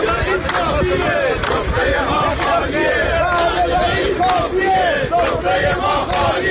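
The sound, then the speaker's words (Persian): Telecom retirees at a protest rally in Khuzestan chant and shout together as a crowd. The voices are loud and continuous, rising in rhythmic waves of massed calling. “و بالاخره صدای بازنشستگان مخابرات در تجمع اعتراضی خوزستان روز دوشنبه.”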